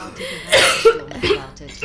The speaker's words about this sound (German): dieser Husten.